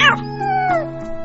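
A kitten meowing while being mistreated: a drawn-out, tonal cry whose pitch slides downward, heard alone over a steady low drone.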